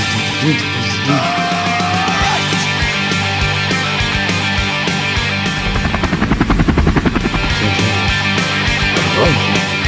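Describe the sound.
Helicopter rotor chopping in a loud, steady throb that fills the whole stretch, with the rapid blade beats growing most prominent toward the middle and latter part.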